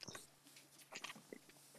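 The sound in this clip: Faint chewing of an aerated, bubbly chocolate bar with a soft caramel centre, giving a few soft crunches and moist mouth sounds at an uneven rhythm.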